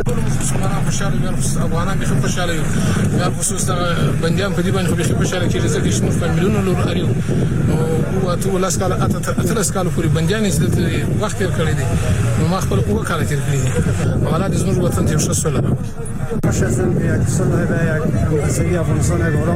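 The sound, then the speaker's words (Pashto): Noise of released Taliban prisoners leaving Pul-e-Charkhi prison in the evening darkness, many of them riding in vehicles: a loud, continuous din of many voices with engine noise beneath, unbroken for the whole stretch. “دا د هغو طالب بندیانو شور او ځواک دی چې تیر ماښام په تیاری کې د څرخی پله له زندان نه آزاد شول.”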